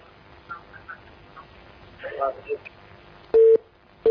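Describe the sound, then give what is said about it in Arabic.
A phone line's disconnect tone follows a dropped call-in call: faint murmuring and scattered noises, then one loud, steady mid-pitched beep, with the start of a second beep cut off at the end. “انقطع الاتصال. اتصال آخر.”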